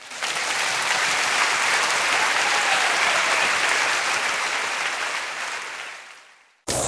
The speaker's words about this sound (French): On peut acclamer le Seigneur.